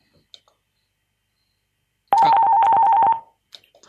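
An incoming phone call being picked up produces a steady buzzing telephone tone lasting about a second. A couple of faint clicks come before it, and soft clicks follow after it cuts off.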